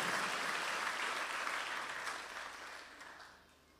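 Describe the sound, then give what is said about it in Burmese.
Applause from a church audience clapping in praise of Jesus: a dense, sustained patter of many hands that slowly thins and fades toward the end. “လက်ခုပ်တီးလက်ပြားယေရှုတော်ကိုချီးမွမ်းကြရအောင်အာမင်”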